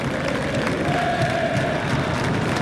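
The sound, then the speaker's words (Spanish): Málaga football supporters applauding the Real Zaragoza fans inside a stadium: a loud, unbroken crowd roar thick with clapping and cheering that stays steady from start to finish. “Y ahora, mira, a ver, la afición del Málaga aplaude a la afición del Real”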